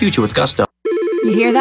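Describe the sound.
An old office telephone rings with a bright, warbling electronic trill that starts after a voice speaks and a short pause. The ring is loud and sustained, and its rapid trill continues steadily to the end.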